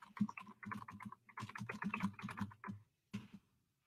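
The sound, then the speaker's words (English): Someone types a web address on a computer keyboard: a dense run of fairly faint clicks, a short pause, then a few more keystrokes. “Hold on, I'm typing yaliberty.org/, what was it?”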